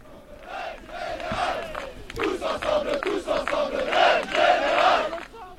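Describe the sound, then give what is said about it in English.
Protesters chanting at pension reform protests in France: a large crowd shouting a loud, rhythmic chant that swells in repeated surges, voices blending into a dense roar. “Welcome back to First Move and to new pension-tide protests across France.”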